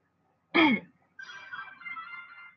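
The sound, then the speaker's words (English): A single sharp, harsh cough or throat-clearing burst, followed after a brief pause by a longer, rough, breathy rasp, heard alone without speech. “They start coughing out of nowhere. That's weird. I have not been coughing at all.”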